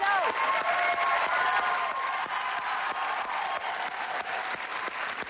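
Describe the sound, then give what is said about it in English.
A long ovation from an audience: thick, continuous applause from many people clapping, holding loud and steady throughout without a break. “I cut out 25 seconds of applause from this ovation to let you know just how long it went.”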